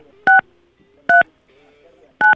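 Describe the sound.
Telephone keypad dialing tones: three short, loud dual-tone beeps spaced apart by quiet gaps, with faint low background sound between them.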